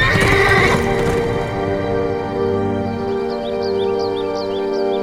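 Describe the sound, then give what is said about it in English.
Horse hooves clatter along a wide road as a steed runs, joined by loud neighing; the busy hoofbeats are densest at the start, then ease under a continuing whinny. “The steed flew over the wide road, and the king searched along its length for any trace of his son's passing.”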